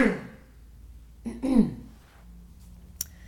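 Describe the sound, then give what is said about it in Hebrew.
A single sneeze from a person bursts out mid-clip as a sharp, breathy, voiced blast, brief and fairly loud against an otherwise quiet background, followed by a faint short click near the end. “סליחה, היה לי אבצ'י.”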